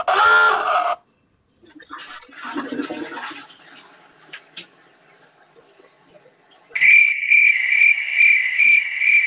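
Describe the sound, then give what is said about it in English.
Crickets chirping as a joke sound effect played from a soundboard. A brief loud burst and some faint mixed sounds come first, then a steady, loud, high-pitched pulsing trill fills the last few seconds. “That's the noise. That's a good one. That's the noise. Like this is the joke noise. Fucking crickets.”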